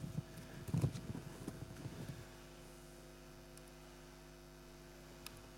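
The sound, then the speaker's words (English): A tennis ball machine being armed and powered up: a few clattering knocks over the first two seconds, then a steady low electrical hum that continues on its own. “So now that machine's ready to go. It's ready to start shooting tennis balls out, but as you can see, it's safe here.”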